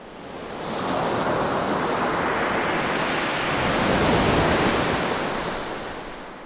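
Ocean waves in stormy, windy weather with very high surf: a continuous broad roar of breaking water that swells in, peaks strongly near the middle and eases off again, with no voices.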